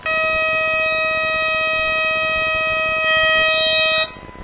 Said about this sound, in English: It's going to make a little bit of a loud noise. When I turn it on, it's the battery check.